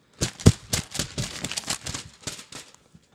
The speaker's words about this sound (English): I have just been handed the envelope. And the winner is...